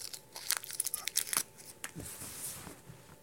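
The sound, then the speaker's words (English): Crinkling and tearing of wrapping as an object is unwrapped by hand. It comes as a faint, irregular series of quick rustles and crisp snaps, with a softer stretch of crumpling toward the end. “Let me unwrap it.”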